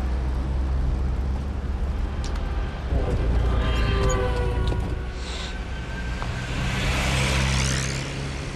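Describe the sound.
Car driving, a continuous low engine and road rumble with a steady hiss of moving air, holding even loudness throughout with no voices.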